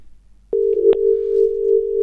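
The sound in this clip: Telephone dial tone after a live phone-in call drops. A near-silent moment gives way abruptly to a steady, single-pitched hum with a short click early on, and the hum holds to the end.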